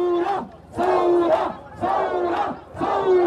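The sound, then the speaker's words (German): Protesters in Beirut, Lebanon chant 'Revolution' in unison, a loud, rhythmic chant of many voices repeated several times with brief pauses between each shout. “Revolution, Revolution, rufen die Demonstranten im Libanon lautstark seit knapp 2 Wochen.”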